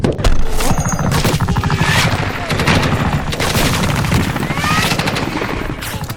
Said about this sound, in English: After that happened, there was like an 8 or 9 man L-shaped ambush.